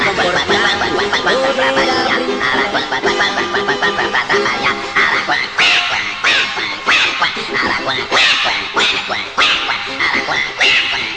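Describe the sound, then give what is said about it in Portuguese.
An aracuã (chachalaca) bird screeches loudly, a rapid, rhythmic stream of harsh, raucous cackling calls running without a break through the whole stretch. “o Araquã saiu de lá do coqueiro e atrapalhou toda a festa com seu enorme berreiro.”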